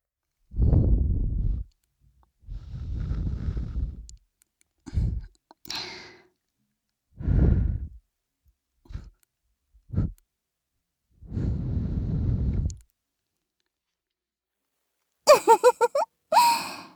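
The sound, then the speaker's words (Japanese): Soft breath blown close into the ear: a series of gentle, breathy puffs, some long and some short, with quiet pauses between them and a brief higher-pitched rustle near the end. “お耳…ふうふうされたいんですか？”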